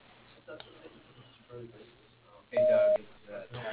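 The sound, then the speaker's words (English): A voicemail beep before a message is left: one steady, fairly high tone about half a second long, rising loud out of faint, muffled phone-line noise and murmur. “You have received the voicemail box of Jim Reynolds. Please leave a message at the tone.”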